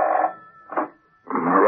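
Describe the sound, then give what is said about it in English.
An office telephone rings in a radio drama, sounding as a few short buzzing bursts separated by brief gaps, with a thin steady tone running between them. “In a nearby office, Roxby, a fellow worker, picked up his phone.”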